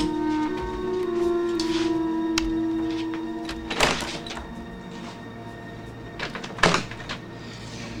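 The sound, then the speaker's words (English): A light being switched on and a door opening, heard as two distinct clunks a few seconds apart over a low, steady hum, with no voices. “Looking sleepy and puzzled, Michael switches on the light and opens the door.”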